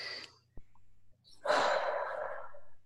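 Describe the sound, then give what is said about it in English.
A deep breath taken during a relaxation exercise: a brief breathy puff, a pause, then a long, steady rush of air that fades out. “Yeah, one last deep breath.”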